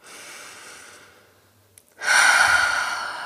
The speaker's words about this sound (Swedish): Behov framför begär. Ta ett andetag.